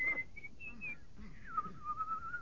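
Solo whistling of a slow concerto melody by a soldier: a clear, sustained tune with held notes that glide down and level off, with no talk.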